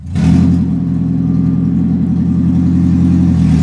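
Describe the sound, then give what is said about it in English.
A 2011 Toyota Prius engine runs loud without its catalytic converter, a steady, rough, throbbing exhaust drone with a deep rumble that holds for several seconds. “This 2011 Prius is missing its catalytic converter.”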